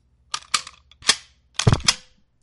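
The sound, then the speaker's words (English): Lever-action rifle being handled, a few sharp metallic clacks and clicks in quick pairs separated by short pauses, crisp and fairly loud against near silence. “No, that's not a shotgun. It's a lever-action rifle.”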